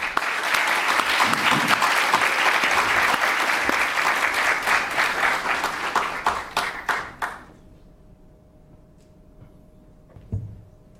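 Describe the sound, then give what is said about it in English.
Audience applause welcoming speaker Professor Adam Przeworski to a lecture on social democracy. Loud, dense clapping lasts about seven seconds, then thins out and fades to near quiet. “can I ask you to join me in welcoming our speaker, Professor Adam Przeworski”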